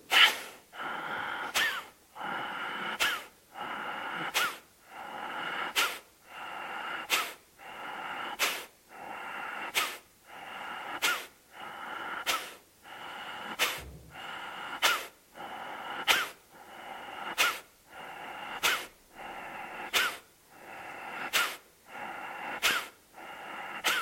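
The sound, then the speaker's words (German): Gentle Kapalabhati yoga breathing: many short, forceful nasal exhalations at a steady, even rhythm of roughly one every second and a half, each a breathy puff with quiet pauses between, with no talking. “dass ein sanftes Kapalabhati bleibt und keine Verletzungsgefahr für die Stimmbänder entsteht. Atme also vollständig aus. Atme ein und beginne.”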